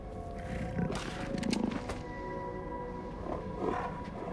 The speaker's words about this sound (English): Looming out of the snowfall ahead is a magnificent white tiger.